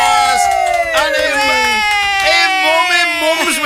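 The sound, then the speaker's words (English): A few voices cheer and whoop for a morning guest in a studio, with high, sustained yells that overlap and waver in pitch. “Somebody make some noise for our guest this morning. Yay.”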